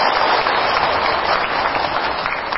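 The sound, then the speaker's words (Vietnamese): An audience at a Buddhist dharma talk claps in a dense, continuous round of applause that stays loud and even throughout. “Đó quý vị, cho một tràng pháo tay.”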